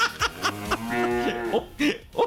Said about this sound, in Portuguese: Um mugido